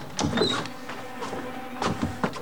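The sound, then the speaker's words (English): A key is inserted into a door lock, making a few quiet metallic scrapes, clicks and rattles in separate bursts, with no voices. “They stop at a door and he inserts a key.”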